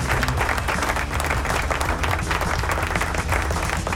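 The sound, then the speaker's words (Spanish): Dense applause from a crowd on a Sunday-night rock radio program: a continuous crackling wash of clapping that holds an even, fairly loud level for the whole stretch, with no speech over it. “¡Aplausos! ¿Dónde están los aplausos? Ahí están.”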